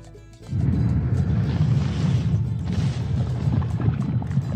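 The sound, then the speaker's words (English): A Balrog fire demon sound effect: a loud, dense, low rumbling roar that starts abruptly after a brief quiet moment and holds steady, heavy and unbroken, to the end. “It's the Balrog? Okay. That is the Balrog.”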